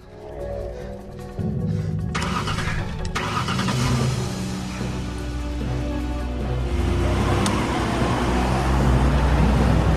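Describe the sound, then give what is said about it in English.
Car driving through Los Angeles city streets: continuous engine and road noise at an even, fairly loud level for the whole stretch. “Jack drives through the streets of LA.”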